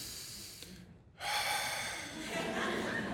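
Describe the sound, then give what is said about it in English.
A deep breath drawn in through the nose, a brief hush followed by a rough, breathy rush of air that holds steady and fairly loud for about two seconds, with no talk over it. “You take a breath, right? Breathe in, and that allows you to relax a little.”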